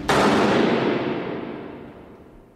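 A single sharp rifle volley from a firing squad at an execution in a fortress moat, one loud simultaneous crack that rings out and decays slowly over more than two seconds, with no voices.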